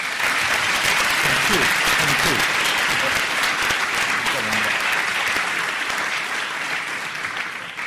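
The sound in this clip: Warm applause from a lecture audience welcoming the speaker for a talk on Europe's crisis: a loud, dense, continuous clapping roar that holds steady before thinning slightly at the end.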